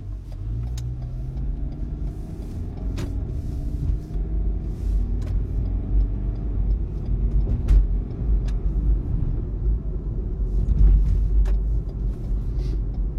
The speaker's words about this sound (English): We're gonna take these back roads because I'm driving towards the high school, and at this time, there's always too many cars.